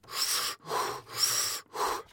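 A person draws deep breaths, making four broad, airy breath sounds in an even rhythm with short gaps between them. No one speaks.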